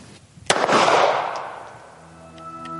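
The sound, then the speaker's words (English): A handgun fires a single loud, sharp shot followed by a long, decaying rumble that fades over the next two seconds. “You would insert the magazine. You would wreck the slide. And fire the weapon.”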